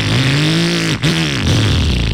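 Motorcycle engine revving loudly and steadily, its harmonic tone wavering, briefly cut off near the midpoint, then picking up again.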